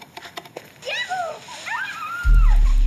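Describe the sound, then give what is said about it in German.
Splashing and sloshing as someone wades into the sea, where adults and children play in the water. Faint high voices come first, then a heavy, low, surging splash fills the final second. “Ich probiere das mal aus. Moment, ich habe da was. Ich bin ins Wasser gewartet.”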